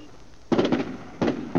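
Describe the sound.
Gunfire at a shooting range: several sharp, loud reports come in an uneven sequence, with brief quiet gaps between them.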